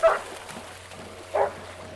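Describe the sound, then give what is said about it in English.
Two short, faint dog barks at an outdoor dog park on a lake shore, spaced more than a second apart over a low steady background hum. “Lorzel, and I'm here because we wanted to hang out with my son in a park with some dogs”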